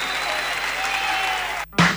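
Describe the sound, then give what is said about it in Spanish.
Audience applause forms a steady, full crackle of clapping that cuts off abruptly near the end, followed by a brief different sound. “Un aplauso para Piti.”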